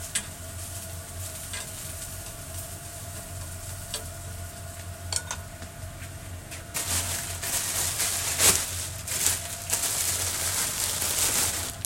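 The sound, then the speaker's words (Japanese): Food sizzling in a pan as it is stirred during home cooking, a constant crackling hiss with scattered utensil clicks that grows louder in the second half. “料理しながら収録するのなんか前より難しい気がする”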